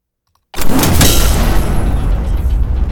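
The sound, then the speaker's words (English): A designed space gun sound effect bursts in after half a second of silence: a sudden loud, booming blast that holds its roar and slowly decays, with a thin high ringing tone trailing through the tail. “Just like so. Nice big old space gun.”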